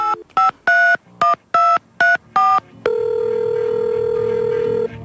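Telephone dialing tones from a phone booth come as a quick run of short, loud keypad beeps, followed by a steady tone that holds for about two seconds.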